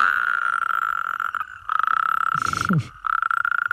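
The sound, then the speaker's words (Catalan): Toads and frogs calling at night produce a rapid, steady trill at a moderate pitch, broken by a couple of short pauses, with a brief lower, rougher croak near the middle. “Pensa que aquests, els gripaus, granotes, molts amfibis, canten a les últimes hores del dia i ja a entrada la nit.”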